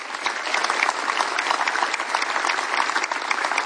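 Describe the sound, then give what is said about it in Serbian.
Applause from a festival audience for the organisers: dense, steady clapping from many hands that holds an even loudness for the whole stretch, with no voices standing out. “Aplauzi za organizatore.”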